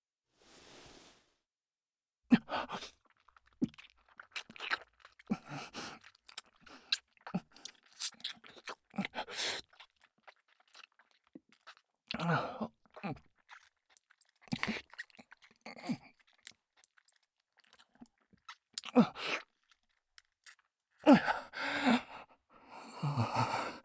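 Soft, wet kissing sounds: many quiet lip smacks and pecks in irregular clusters, mixed with breathy sighs and gasps, with stretches of near silence between them.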